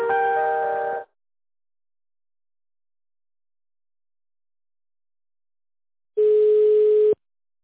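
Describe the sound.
Telephone ringback tone while a call is being transferred: two steady, loud electronic beeps about a second long, separated by several seconds of silence.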